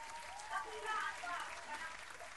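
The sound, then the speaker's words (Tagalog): Audience applause at an evening show, a brief, moderate burst of clapping with voices rising over it. “isang malupit na palakpakan para sa ating lahat.”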